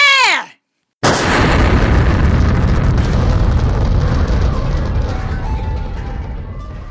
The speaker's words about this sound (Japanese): 手榴弾で全部吹っ飛べ